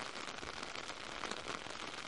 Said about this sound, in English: Whereas before the wind and the rain were lashing into our faces, it's now coming from directly behind.